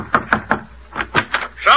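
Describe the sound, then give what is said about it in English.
Knocking on a door: two quick groups of sharp, hollow raps, about three in each, with a voice starting up just at the end. “Somebody thumped on my door.”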